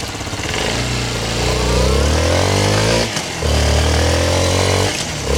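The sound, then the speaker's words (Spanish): A parked Suzuki R160X motorcycle engine runs with a loud, steady, buzzing drone, briefly dipping twice before returning to the same throaty rumble. “esta motocicleta Suzuki de R160X. Óigala cómo suena. Óigala. Parqueada. Arranca.”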